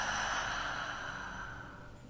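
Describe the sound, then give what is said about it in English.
Gentle breathing, in and out: one long, soft, airy breath that holds steady and fades slightly toward the end, with no talking. “Again, gently breathing in and out.”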